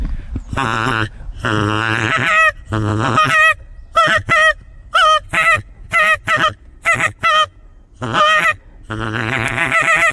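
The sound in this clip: Imitated wild goose calls made to lure migrating geese: a long run of many loud, nasal, harmonic honks. Some are drawn out and others are short, clipped bursts in quick succession, separated by brief gaps.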